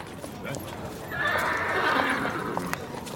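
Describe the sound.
A horse being led whinnies with a long, high, wavering neigh in the middle, while hooves clop in scattered knocks and soft scuffs throughout, in a radio drama scene.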